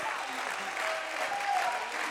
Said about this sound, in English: come on, you ought to clap your hands if you're thankful for the boundaries.